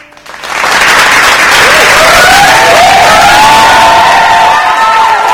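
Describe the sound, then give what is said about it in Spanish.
Loud applause from a crowd swells quickly after a brief quiet start and holds as a dense, sustained roar, with cheering and high whoops rising above the clapping. “¿Le vas a hacer el aplauso? Sí. Hacer el aplauso.”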